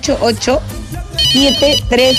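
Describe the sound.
Ringtone of an incoming telephone call: a loud, repeating electronic melody of short, bright tones that briefly dips lower before the pattern returns.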